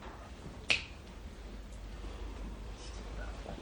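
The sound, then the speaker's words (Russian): A single sharp finger snap, crisp and brief, rises out of a low, steady background hiss early on and then fades back into it. “Если важные слова вы выделяете щелчком пальцев, то это тоже одновременно и жест,”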